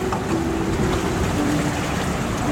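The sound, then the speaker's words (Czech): Ocean waves, a steady rushing wash of water with a faint low hum running beneath it. “A oceán ti k tomu hraje uklidňující melodie.”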